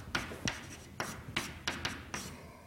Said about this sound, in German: ich schreibe es nochmal hin